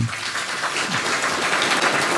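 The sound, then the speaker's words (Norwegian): Audience applause at a Norwegian panel discussion on research and art, a dense, even patter of clapping sustained at moderate loudness for the whole stretch. “Vi må få en applaus for det.”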